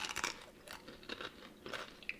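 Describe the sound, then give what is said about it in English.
Crisp crunching as an oily potato chip is bitten and chewed, a few separate sharp crackly bursts spaced through the moment, with no talking. “It's a good chip. Yeah, I can taste a lot of oil. That's a potato chip.”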